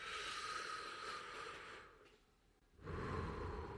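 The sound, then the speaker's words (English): Deep, slow meditation breaths, loud and airy, with a long breathy swell, a brief quieter lull, then another strong rush of breath. No one speaks. “I start and end all of my meditations with these three deep breaths.”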